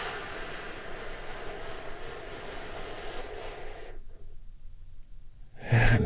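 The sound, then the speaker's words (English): A long, deep breath in and out during a guided relaxation exercise, a steady airy rush that lasts several seconds, then drops into silence before a brief breathy burst at the end. “Join me in taking a big, deep healing breath right now.”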